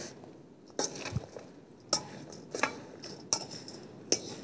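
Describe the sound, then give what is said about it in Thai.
Salt scrub ingredients being mixed together in a bowl with a utensil make a few sharp, quiet clinks against the bowl, separated by soft scraping and rustling. “แล้วก็คลุกเคล้านะคะให้ส่วนผสมเข้ากัน”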